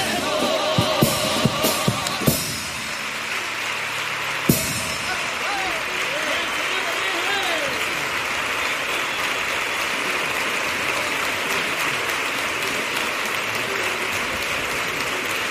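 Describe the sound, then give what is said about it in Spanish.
Audience applause after a paso doble song: a few strummed chords, then loud, dense, steady clapping that runs on unbroken for about thirteen seconds. “muy aplaudido este paso doble”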